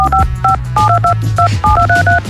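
A mobile phone signal tone used as a radio contest cue: a rapid run of many short dual-pitch keypad-style beeps in an irregular pattern over a steady low bass hum.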